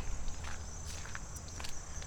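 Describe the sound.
Faint footsteps of someone walking off a boardwalk, a few soft, uneven steps over a steady low hiss.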